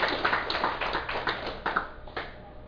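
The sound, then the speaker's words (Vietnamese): Applause from an audience at a Buddhist dharma talk: sparse, distinct handclaps from a small group, fairly faint, thinning out and fading toward the end. “Xin quý vị vỗ cho một tràng pháp tay.”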